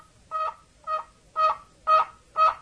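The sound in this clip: An imitation of a hen turkey's call meant to attract a tom: five short, evenly spaced yelping notes, growing slightly louder after the first two, with no other sound around them.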